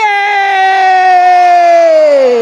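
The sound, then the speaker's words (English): A loud, drawn-out cheer of "yay" from children at an Easter Sunday church lesson, held steady and then sliding down in pitch at the end. “Yeah, let's say yay.”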